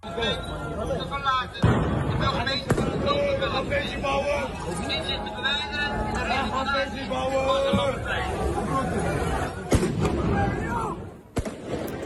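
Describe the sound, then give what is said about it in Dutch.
Crowd hubbub fills a packed Mercatorplein square, where heavy fireworks are set off as police clear the area; a few sharp bangs cut through the steady babble of many voices. “Ja, zwaar vuurwerk en de politie die het plein probeert te ontruimen.”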